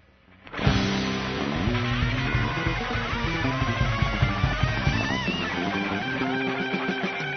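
Live music from a house band at an evening stage event, opening after a brief near-silence with a sudden full-ensemble entry and continuing as a dense, busy performance at a steady level.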